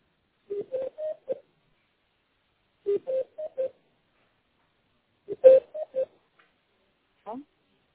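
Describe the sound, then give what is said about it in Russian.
Faint telephone tones as a call is transferred to a records and registration department. Three clusters of quick, short beeps are separated by pauses, followed by a brief warbling sound. “Так, сейчас я вас соединю с отделом учета и регистрации.”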